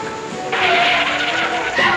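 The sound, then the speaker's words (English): A car swerves past a person walking down the middle of a road, its tires making a broad rushing, skidding hiss that surges at about half a second, holds steady, then swells again briefly near the end. “Another car swerves around her.”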